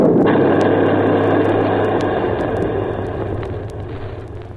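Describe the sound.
An artillery gun fires a shell at a stopped tripod machine: one loud blast at the start that decays into a long rumbling roar, fading over several seconds with scattered faint crackles.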